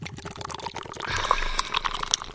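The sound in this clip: Fizzing drink pours from a freshly opened can in a steady hissing, bubbling stream. It lasts about two seconds and grows slightly louder toward the end, with no talk over it.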